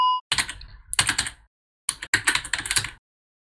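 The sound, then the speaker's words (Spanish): Rapid typing on a computer keyboard, clattering in two dense bursts of keystrokes separated by a short pause, with no voices. “¿quién está tecleando, hackeando el mambo?”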